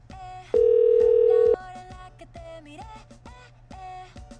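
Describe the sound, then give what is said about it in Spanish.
Ringback tone of an unanswered telephone call: one steady, mid-pitched tone lasting about a second, loud over a quieter, busy background. “No me digan que no me van a contestar. Ahora entiendo lo que siente mi querido Juan Carlos Toledo cuando hace sus dinámicas. ¡Contesten, contesten!”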